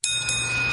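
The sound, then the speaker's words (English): A bell dings as a car rolls into a Valvoline Instant Oil Change: one bright, clear ring that starts sharply and holds steady to the end. “Hear that? That's the sound of a car rolling into Valvoline Instant Oil Change.”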